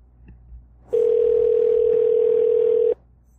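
A telephone ringing on a call: a single steady electronic ring tone that holds for about two seconds and then stops, heard alone over a faint low hum.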